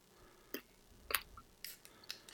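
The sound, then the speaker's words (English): Werther's hard candies are chewed with a few faint, sharp, brittle crunches spaced roughly half a second apart over near silence. “Sorry, I'm eating them anyway. I love these old people candies. I love Werther's.”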